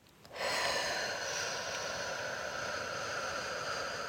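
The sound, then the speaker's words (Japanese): One long, deep breath starts abruptly and streams on as a steady, airy hiss for nearly four seconds. It stays quiet and even, with no voices. “じゃあみんな今深呼吸しましょう、一緒に。”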